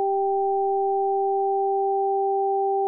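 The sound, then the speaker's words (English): Two pure sine tones, one high and one low, alternate between the left and right ears in opposite order. Together they make a steady, even drone for about three seconds, with faint regular ticks roughly four times a second. “And at the same time, a low tone alternating with a high tone in the other ear. High low on one side, low high on the other.”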